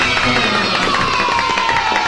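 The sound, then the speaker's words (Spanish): A circus audience applauds and cheers after a show, with dense clapping and crowd noise holding a steady level for about two seconds. “Sí, señores, si les gustó la función, ¡aplauda!”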